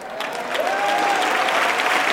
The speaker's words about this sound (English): Get those hands clapping.